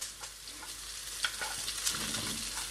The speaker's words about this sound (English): I am now going to add my scallions or spring onions and my green beans